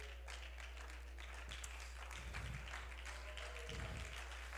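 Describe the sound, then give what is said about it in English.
Quiet, polite golf clap from a small audience: faint, thin, scattered clapping that stays soft and even throughout, with no talk over it. “thanks for the golf clap. I appreciate it.”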